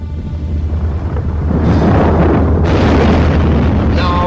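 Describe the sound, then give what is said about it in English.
A heavy, continuous roaring rumble of underground gas explosions setting off volcanoes. It is loud and deep, swelling slightly and holding steady, with a faint high whine near the end. “Giant subterranean pockets of gas exploded, touching off long sealed volcanoes.”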